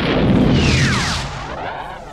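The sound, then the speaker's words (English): Starfighter weapons fire at the ground from a hovering craft: a loud, roaring blast with sweeping, descending whistles that eases slightly toward the end, with no talk. “The targeting brackets clicked off the Aleph and dropped to the ground several meters beneath the hovering starfighter. Han fired.”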